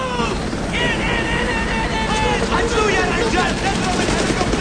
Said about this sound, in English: The helicopter lifts off.